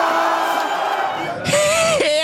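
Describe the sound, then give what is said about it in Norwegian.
Norwegian fans cheer at the final whistle of a football match: a steady crowd roar suddenly swells into a loud burst of yells, with a rising and falling whoop standing out above the cheering. “Når dommeren endelig blåser av, jubler hele Norge.”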